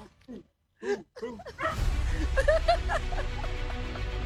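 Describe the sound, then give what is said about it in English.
Dogs bark and yip: a few short, separate barks at the start, then dense, noisy yelping and whimpering over a constant low rumble. “Shut those dogs up.”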